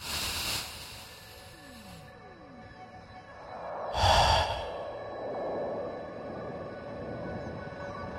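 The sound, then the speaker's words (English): A deep breath is taken during a guided breathing exercise: one soft, airy breath swells in the middle, with a fainter breathy sound near the start and quiet hiss around it. “We need to take a breath. Will you do that with me again?”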